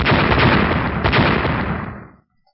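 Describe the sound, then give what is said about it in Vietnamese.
Explosive sound effect in a fantasy audio drama as an eagle's beak strikes and cracks a glowing protective shield: a dense, roaring burst of noise lasting about two seconds, then cutting off into silence. “Ba tiếng nổ vang lên”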